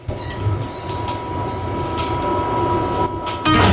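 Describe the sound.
Steady rumble inside a moving passenger train carriage travelling at up to 160 km/h, with faint rhythmic clicks and a louder surge at the end.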